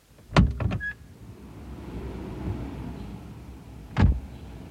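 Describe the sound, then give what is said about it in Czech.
Someone gets out of a car and locks it: a cluster of door thuds and clicks with a brief electronic chirp, then a quiet stretch, and one more solid thump near the end. “Zamkni. Vystup a zamkni vůz.”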